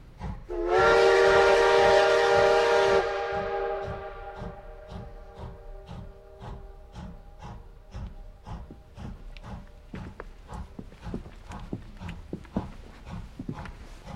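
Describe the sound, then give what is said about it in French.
A train at a small station platform sounds a loud, sustained steam whistle for a few seconds, then settles into a long run of steady, rhythmic chuffing and clanking beats that continue to the end. “Sur le quai de la petite gare d'Orcival.”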